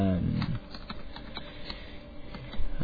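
Keystrokes on a computer keyboard while entering commands for a computer game, heard as a string of light, irregular clicks after a brief low murmur at the start.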